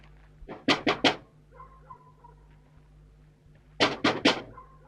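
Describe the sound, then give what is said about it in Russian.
Knocking on a house window in a village before dawn: two bursts of three sharp raps, separated by a quiet pause of a few seconds. “Подходит к окну дома, стучит.”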